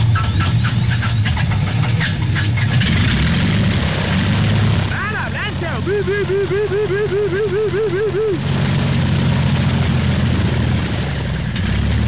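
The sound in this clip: A propeller airplane engine drones loudly and steadily as it starts up for a skydiving climb to 10,000 feet, with a warbling, wavering tone riding over the middle stretch.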